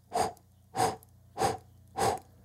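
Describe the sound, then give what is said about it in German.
Four sharp, evenly spaced breaths from a yoga pranayama exercise of breathing in four parts through the nose and out in four parts through the mouth, each a short breathy rush separated by quiet pauses. “indem ich zum Beispiel durch die Nase in vier Teile einatme. Ich mache das mal kurz. Und dann durch den Mund in vier Teilen ausatmen.”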